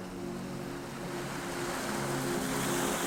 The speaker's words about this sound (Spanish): El viento se levantó con violencia. Las olas comenzaron a crecer y la barca crujió como un árbol en plena tormenta.